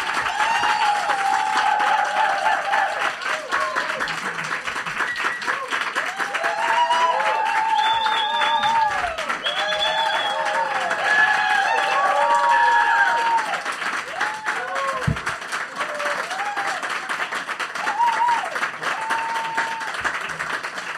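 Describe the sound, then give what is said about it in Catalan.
Studio audience applause, dense and steady, clapping that continues for the whole stretch with voices audible over it. “Em trec els cascos perquè a mi m'agrada sentir el públic. Sí. La claca.”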